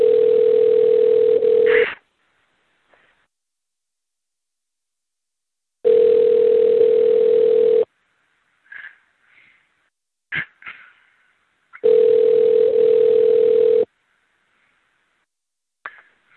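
Ringback tone of an unanswered telephone call, heard from the caller's end: three steady two-second tones separated by about four seconds of silence, with a few faint clicks in the gaps.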